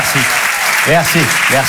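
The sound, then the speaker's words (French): A comedy show audience at the Apollo Théâtre applauds in a loud, steady burst of clapping while a voice speaks over it. “je trouve ça bien de rentrer sur scène avec de la bienveillance et des applaudissements”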